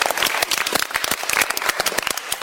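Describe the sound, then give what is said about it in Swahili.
Applause from a group during a Christian teaching session with children: dense, even hand clapping that runs the whole time, loud and almost free of voices. “Wow, mpigeni makofi.”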